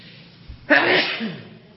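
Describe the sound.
A single sharp sneeze during an Islamic religious lecture, a sudden loud burst after a soft intake of breath, trailing off into breathy noise.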